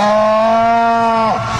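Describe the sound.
A cow in a street gives one loud, sustained moo, steady and strongly tonal, that drops in pitch as it breaks off near the end.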